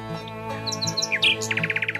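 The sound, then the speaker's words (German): A nightingale sings in a small floodplain woodland in a nature reserve: quiet, varied chirps and whistled notes give way to a quick run of repeated trilled notes, over a faint low hum. “Allerdings muss die Nachtigall ganz schön lange üben, bis sie ihren Gesang perfekt beherrscht.”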